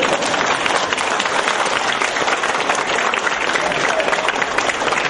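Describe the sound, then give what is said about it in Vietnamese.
An audience applauds after a song, a dense wash of many hands clapping at once that stays loud and steady from start to finish. “Vỗ tay đi.”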